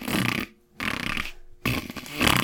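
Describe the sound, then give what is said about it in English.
A voice imitates a long, loud fart with three sustained, raspy bursts of blown air separated by short silent pauses. The last burst is the longest. “There's just like a continuous amount of air coming out of you. And very loudly.”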